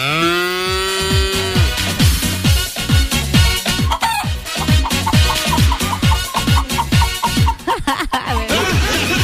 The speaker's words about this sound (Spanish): El mega gallinero que tengo acá.